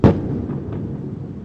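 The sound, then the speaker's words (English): Airstrike explosion from warplanes bombing southern Beirut at night: one deep, heavy boom followed by a long, low rumbling tail that gradually fades. “Israeli warplanes bomb southern Beirut again overnight, as we can hear.”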